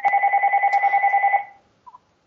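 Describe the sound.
A newly installed home telephone rings with a rapid warbling electronic trill. It stays steady and loud for about a second and a half, then cuts off, leaving two faint short blips.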